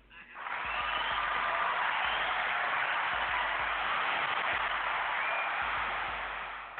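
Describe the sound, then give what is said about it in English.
A crowd cheers and applauds to welcome a caller joining a call-in show, a steady, even roar of clapping and voices that swells in quickly and holds for about six seconds before tapering off. “They cheered for you and welcomed you in.”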